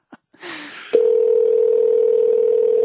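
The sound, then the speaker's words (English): Unusually long telephone ringing tone on an outgoing call: a few short clicks and a burst of hiss, then a loud, unbroken single-pitch tone that holds steady to the end. “Okay, now it's normal. That was the weirdest long ring I've ever.”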